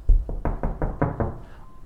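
Knocking on a door: a rapid, evenly spaced run of hollow knocks, loud and alone, fading into quiet after the last one.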